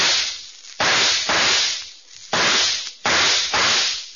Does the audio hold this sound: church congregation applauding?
no